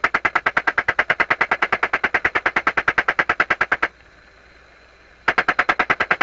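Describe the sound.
Aircraft machine guns fire in a dive attack during air combat: long, rapid, evenly spaced bursts of loud gunfire that stop for a moment of near silence and then start again.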